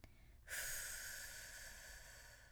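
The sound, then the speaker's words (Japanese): A slow, voiceless exhale pushed out from the belly as a breathing exercise for voice training. A soft, airy hiss begins about half a second in and is sustained to the end, fading slightly. “こんな感じで息だけ吐いてください”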